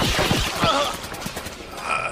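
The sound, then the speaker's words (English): Gunfire from people shooting back at pursuers who have come up behind them: a dense, rapid burst of shots buried in a loud, busy mix of noise. “Somebody got behind us. What are you waiting for? Shoot back.”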